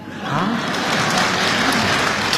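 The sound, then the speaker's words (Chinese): Audience applause at a Beijing comedy stage show rises quickly from near silence into loud, dense, continuous clapping. It then holds steady to the end. “说实在，大家鼓掌还有一方面意思。”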